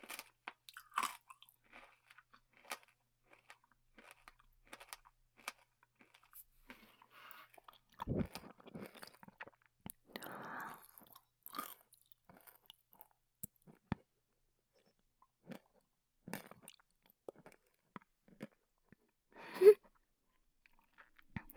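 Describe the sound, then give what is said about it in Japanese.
A hard, crunchy snack chewed close to the ear late at night: scattered, faint crunches and bites with soft mouth sounds between them, no talking. “なんか耳元で食べるのってなんか汚いかも。”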